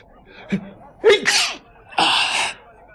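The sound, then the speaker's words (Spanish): Sneezing from someone with a cold: a short gasping intake of breath, then two loud, explosive sneezes in quick succession, the second a longer, hissing burst. “¡Ay! Vaya, ya he cogido otro catarro. Y los estornudos me pueden delatar.”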